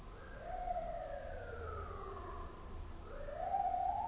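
A wailing emergency siren with a slow, smooth rise and fall in pitch, sustained and fairly steady in loudness over a low rumble, with no voices.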